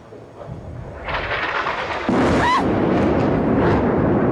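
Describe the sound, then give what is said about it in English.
Missile strike explosions hitting a tower building in Gaza City: a deep, roaring rumble that swells in two distinct steps and then holds loud and sustained, with no talk over it. “This is a missile attack on Palestine Tower.”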